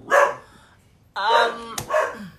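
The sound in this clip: A young female puppy barking: a few short, high-pitched yips and whiny barks in separate bursts, fairly loud, with a brief sharp click between the last two.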